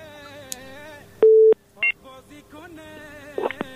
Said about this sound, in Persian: بله فکر میکنم تماسشون قطع شد. بریم سراغ تماس بعدی.